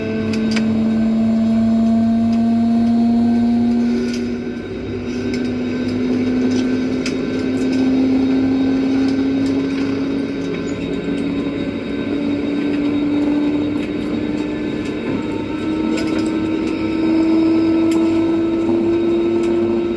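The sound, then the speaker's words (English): Airliner hydraulics whir after engine start as the pilots set the flaps: a steady, moderately loud whine that climbs slowly in pitch over a constant engine drone. “after engine start, you will likely also hear the hydraulics come on again and on most airplanes. And the reason for this is the pilots are setting the flaps and they use a fair bit of hydraulic pressure.”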